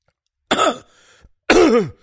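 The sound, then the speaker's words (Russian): A man coughs twice, harsh and voiced, with a faint short sound between the two bursts and silence around them. “закашлялся и перевернулся на правый бок. Потом сделал судорожный вздох. Еще. Зашелся в выворачивающем кашле”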